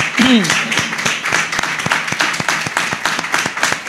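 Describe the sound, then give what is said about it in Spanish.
Applause from an audience at an award ceremony honouring an astronomy association: a dense, steady stream of sharp claps, loud and continuous throughout, with no talk over it. “yo creo que se merecen un aplauso todos ellos.”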